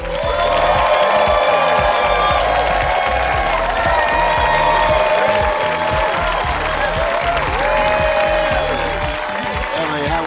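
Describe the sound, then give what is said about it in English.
A comedy club audience applauds and cheers as a comic is introduced: a dense, loud, steady wash of clapping and whoops that holds through the whole clip, with a voice faintly above it. “From Oak Cliff, Texas, put your hands together for the Malcolm X of comedy, ladies and gentlemen, Black Ron!”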